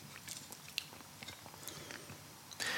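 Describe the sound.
Soft, crunchy biting and chewing while taste-testing food: faint, irregular crunches and mouth clicks with a few sharper bites, then a louder crunchy burst near the end.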